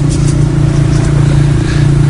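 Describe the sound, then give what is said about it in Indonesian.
A car's engine drones as the driver steps on the gas through empty, shut-down town streets toward home. The low, loud hum holds steady and continuous with no other sounds. “Aku tancap gas hingga melewati jalan kecil atau jalan memotong menuju rumah.”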